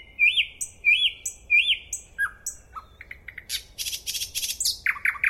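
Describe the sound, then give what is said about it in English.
Nightingale song: three matching rising whistled phrases, then falling notes and a fast run of sharp chirps and trills. The song is loud and clear, with no other sounds. “So the song of the nightingale is a music unlike any human music.”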